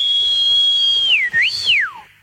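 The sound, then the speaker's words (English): A person whistles a high, clear tone alone as part of an a cappella take on a funk song: a long steady held note, then a quick dip and rise, and finally a falling glide. “you can't whistle”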